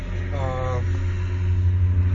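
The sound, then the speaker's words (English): A truck drives past with a steady low engine rumble that runs through the whole stretch. A brief voice sounds early on, over the droning motor. “Okay, truck just went by. Trucks just went by.”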